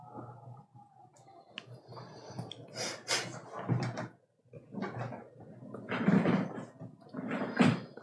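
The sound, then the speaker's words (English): A door is shut, heard as a few knocks and bumps among rustling handling noise at moderate loudness. “As he shuts the door behind.”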